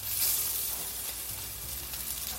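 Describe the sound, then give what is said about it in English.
Six croquettes sizzle as they fry in a skillet, giving a steady, even hiss with no break and no talking. “We're going to let this fry for 3 minutes on either side.”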